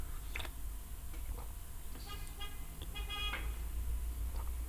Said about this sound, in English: I don't know if you can hear the traffic noises outside. A car beeping its horn.